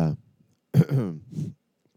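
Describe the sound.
Throat clearing: a short rough voiced burst, a pause, then a longer guttural rasp of a few harsh pulses, fairly loud and alone, ending in quiet.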